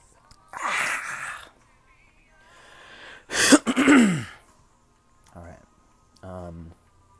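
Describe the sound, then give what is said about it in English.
Throat clearing by a person with GERD, several separate rasping bursts with pauses between them, the loudest cluster coming midway and fainter, shorter ones toward the end. “I have a GERD, so I'm going to be clearing my throat kind of often.”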